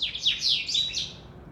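Birds chirping in the early morning around a large old house: many high, quick chirps and tweets overlap in a steady, lively chorus, with no voices.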